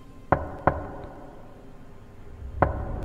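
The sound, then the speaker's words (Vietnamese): Knocking on a door on a winter night: three sharp, distinct raps, two in quick succession followed by a pause and a single third knock, over a quiet, faintly hissing background. “Tiếng gõ cửa lạnh ngắt đều đặn cứ khe khẽ vang lên trong đêm mùa đông mờ mịt.”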